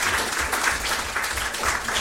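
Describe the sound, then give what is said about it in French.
An audience applauds to thank a guest for sharing a collection, with many hands clapping in a dense, steady patter. It stays fairly loud and unbroken from start to finish. “Je crois qu'on peut l'applaudir et le remercier de ce qu'il nous a apporté.”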